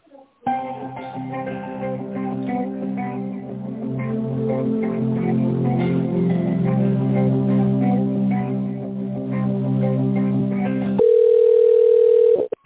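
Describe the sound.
Telephone hold music on a narrow phone line while a call is being transferred, a continuous melodic passage that breaks off into a steady single-pitched tone for the last second and a half.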